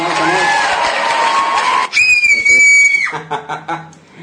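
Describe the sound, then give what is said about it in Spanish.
A scream sound effect: one high, piercing, sustained shriek that lasts about a second and cuts in loudly after talk. “Es el grito el que queríamos.”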